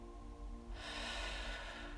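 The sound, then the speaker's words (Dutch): A person slowly breathes out during a meditation exercise, a soft, breathy rush of air that begins partway through and continues to the end over a steady, low background hum. “Adem in. Hou even vast. En blaas het uit.”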